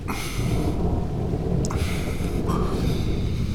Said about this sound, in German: Es regnet ja.